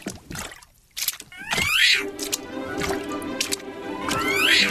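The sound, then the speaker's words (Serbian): A cat wades upright on its hind legs through a deep rain puddle, making a few wet, squishy splashing sounds in uneven bursts, fairly faint, with no clear talking. “Može da se propne na dve zadnje noge i da tako lepo šljapkajući pređe preko za nju tako duboke vode.”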